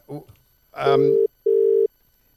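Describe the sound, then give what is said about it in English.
Ringback tone of an outgoing telephone call: after a brief voice, a steady buzzing double ring sounds, two even bursts separated by a short gap, loud and clear. “ring the number, please. Right, so we're ringing”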